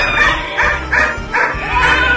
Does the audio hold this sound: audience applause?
no